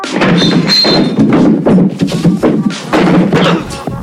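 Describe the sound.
A person tumbling down a staircase in a comedy sketch, with many loud, irregular thuds and bumps piling on top of one another.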